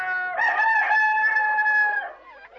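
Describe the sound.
A rooster crows in one long, sustained, nasal call of about a second and a half, steady in pitch and fairly loud, followed by a brief softer trailing sound.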